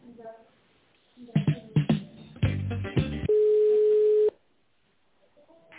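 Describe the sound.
Telephone ringback tone while a call is transferred: a single long, steady mid-pitched tone lasting about a second, preceded by a few loud clicks and bursts on the line, with faint talk at the start and end.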